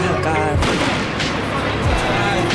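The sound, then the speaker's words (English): A flashbang stun grenade detonates at a protest, a sharp booming blast followed by further heavy thuds amid dense crowd noise. “that was a flashbang. People didn't run far. That's good. People are starting to cover their faces. Seems like there's gas coming.”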